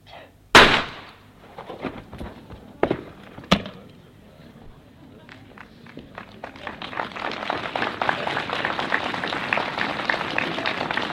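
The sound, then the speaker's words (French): A loud pistol shot, fired by a man into his own chest, cracks out sharply, then a few fainter sharp snaps follow before a dense crackling wash swells and holds to the end. “se tire un coup de pistolet dans la poitrine”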